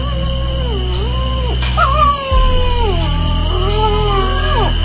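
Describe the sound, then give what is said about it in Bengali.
A dog howls strangely at night in long, wavering cries whose pitch slides up and down, with the calls running on almost without pause over a low, steady hum. “কুকুরের অদ্ভুত ডাক শুনতে পাচ্ছিস?”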